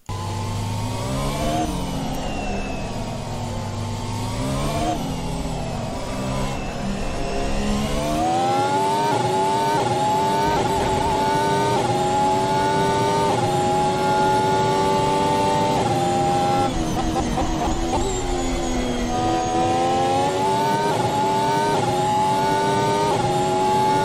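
Formula 1 car engine on an onboard lap of Istanbul Park, the Turkish Grand Prix circuit: a loud, continuous high-revving scream whose pitch climbs and drops repeatedly through gear changes and braking, with no talk.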